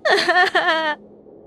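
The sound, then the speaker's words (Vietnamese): A woman sobs mournfully as she kneels and begs forgiveness. Her voiced, drawn-out wailing cry comes in two loud bursts, with wavering pitch, then breaks off into quiet. “Tiếng khóc thê lương tới ai oán Ngân dài đến thảm thiết.”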